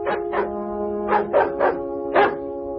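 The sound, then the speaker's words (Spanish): A Labrador barks near a stone bridge in a village, giving about six sharp barks in uneven bursts. A steady tonal sound carries on underneath the barks. “En la aldea Dinsford, un perro labrador ladra cerca de un puente de piedra.”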